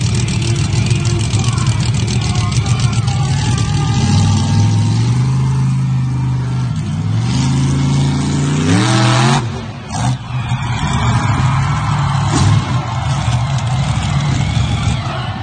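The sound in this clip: A monster truck engine roars during a backflip attempt, loud and throaty. The revs climb steadily before an abrupt jolt and break, then the engine keeps rumbling. Voices talk over it.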